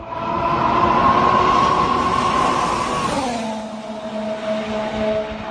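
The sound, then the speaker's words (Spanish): The engine of a new orange McLaren Formula 1 car on its first run, said to need adjusting, gives a loud, sustained mechanical drone. Its pitch steps down about halfway through into a lower, steadier hum, with no voices. “Hoy ha comenzado a rodar el nuevo McLaren de Fernando Alonso. Sabemos que es naranja y sabemos cómo suena.”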